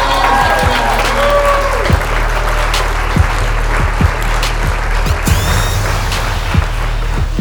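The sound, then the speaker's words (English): Audience applause welcoming a comedian on stage: a steady, loud wash of clapping from a crowd that holds at an even level for the whole stretch. “All right, I want y'all to put y'all hands together and give a warm welcome to Johnny Aaron.”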